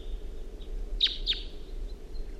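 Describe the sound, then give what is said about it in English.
A wild bird sings far in the distance, giving two quick, high chirps close together that stand out faintly over a steady low background hum. “Song phrased by that second wild bird far in the distance.”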